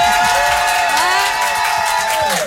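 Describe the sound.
Studio audience cheering with shrill whoops and scattered clapping: loud, sustained cheers with several long, high voices rising and falling, fading out at the very end.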